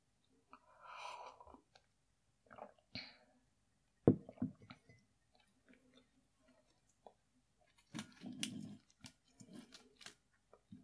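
Chewing a mouthful of food, heard as faint, irregular bursts of soft clicking and moist mouth noises separated by quiet pauses, with no talk.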